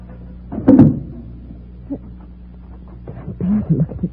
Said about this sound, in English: Here, take this flashlight and hold it on the trunk lock while I open it. You're going to open the trunk? Naturally. My tools and my spare tire are in there.